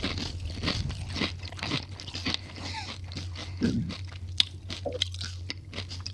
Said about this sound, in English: What's them videos where they make all the chomping? ASMR.